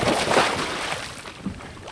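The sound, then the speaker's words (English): A research boat heads out on a sunny September morning to a coral nursery in the Florida Keys, making a steady, rushing wash of water and wind noise that stays broad and fairly even throughout. “On a sunny September Keys morning, researchers from the Nature Conservancy take their boat out to one of the new coral nurseries.”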